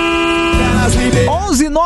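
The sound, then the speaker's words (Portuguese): A car horn gives a short, steady, tonal honk, followed by a voice sounding over a wavering, tonal background. “A buzinada aqui, todo mundo, olha, tomou conta do Brasil a buzinada.”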